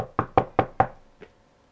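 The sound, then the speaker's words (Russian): Knocking on a door: four firm, evenly spaced raps come in quick succession, then after a short pause one softer fifth knock, with no voices. “И вот в один вечер, когда рабби Ицхак сидел со своей женой дома, вдруг послышался стук.”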